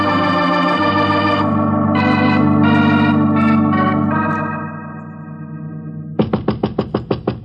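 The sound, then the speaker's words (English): Knocking on a door comes in as a rapid, loud run of sharp raps near the end, after sustained music fills the earlier part. “Sorry, I knocked,”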